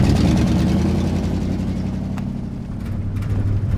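Steady low engine rumble and road noise of an officer's car on a ride back into Sasebe, loud and continuous throughout, with a deeper hum settling in toward the end.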